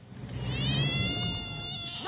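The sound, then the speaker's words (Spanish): A cat meows in one drawn-out, strained yowl lasting about two seconds, fairly loud over a low rumbling background, with no talking. “¡No! ¡Ojo con el gato!”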